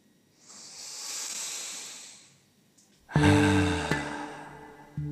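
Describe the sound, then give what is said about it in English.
A deep breath is drawn as a slow, hissing inhale that swells and fades over about two seconds. After a short pause comes a louder, abrupt sound with a steady tonal quality. “let's receive a breath together really quick.”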